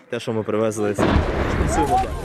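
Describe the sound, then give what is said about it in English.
An artillery shell explodes a couple of hundred meters from a crowd gathered at a food aid distribution. A voice speaks briefly, then a sudden loud blast breaks in and trails into a rough, sustained rumble. “A shell exploded just a couple of hundred meters away.”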